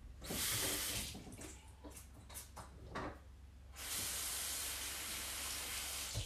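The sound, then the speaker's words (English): Water running from a sink tap as hands are washed, a broad splashy hiss broken by uneven bursts, then a steady, continuous flow for the last couple of seconds. “My hands need to be less sweaty. I don't know if I should wash my hands or not. And I'm going to.”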